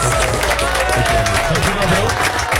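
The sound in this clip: Loud crowd applause for the final contestant of a talent competition evening, a dense run of many people clapping with a murmur of audience noise mixed in, sustained evenly across nearly three seconds.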